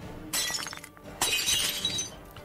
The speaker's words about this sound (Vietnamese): Tiếng mảnh thủy tinh vỡ tan tành, nghe rõ là đanh.